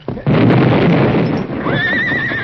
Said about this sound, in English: Better hold the horses. The blast will scare them